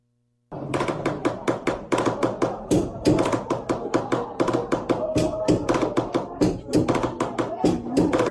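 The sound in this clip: Drums beaten in a lively repeating pattern, many sharp, rapid hits starting after a brief silence and carrying on steadily for about eight seconds.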